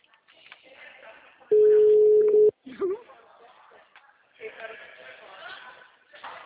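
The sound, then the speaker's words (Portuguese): A telephone call tone plays on an outgoing call: one steady, mid-pitched beep lasting about a second, then a second tone starting at the very end, with people talking before and between them. “Ligando para ela.”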